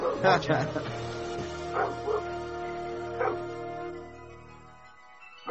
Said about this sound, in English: Sounds like the Will Smith dog in the background